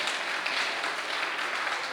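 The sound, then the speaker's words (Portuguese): A church audience applauds in a dense, even wash of clapping that holds steady for the whole stretch, with no distinct voices. “Bate palma para Jesus, igreja. Bate de palmas para Jesus, ô glória. Maravilha, glória a Deus. Pode bater mais forte as palmas para Jesus.”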